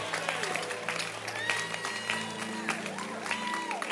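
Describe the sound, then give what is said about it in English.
Applause from a church audience: dense, steady clapping fills the whole clip, with a voice and some tonal sound running over it. “Oh, yeah, clap and be happy.”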